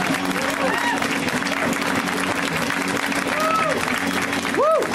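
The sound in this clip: Sustained audience applause for a comedian at a comedy show, a steady, dense patter of clapping with a brief vocal cheer rising near the end.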